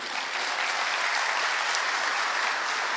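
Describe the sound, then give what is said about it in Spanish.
An audience applauds during a church sermon, dense, even clapping that holds steady and loud throughout, with no talk over it. “Un aplauso para las mujeres, por cierto,”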